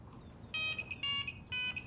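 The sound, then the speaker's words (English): A telephone rings with three short electronic trilling bursts, evenly spaced and fairly soft over a low background rumble. “She grins as the phone rings.”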